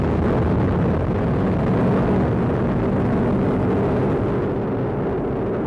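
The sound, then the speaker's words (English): A United Launch Alliance Atlas V rocket lifts off on the NROL-52 mission with a continuous, loud, deep roar full of crackle, holding steady throughout. “Have ignition. And liftoff. Liftoff of the United Launch Alliance Atlas V rocket carrying the NROL 52 mission for the National Reconnaissance Office.”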